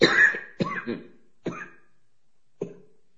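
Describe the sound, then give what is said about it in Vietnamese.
Coughing from an aging man: a cluster of harsh, rasping coughs at the start, then a few shorter separate coughs, the last one alone after a pause. No talk between them. “Bây giờ nó có tuổi rồi, nó ho.”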